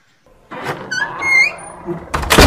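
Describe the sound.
A door shuts with a solid thunk near the end, as Nova Chatterjee closes it before walking off down a long corridor. Softer rustling and faint tonal sounds come first.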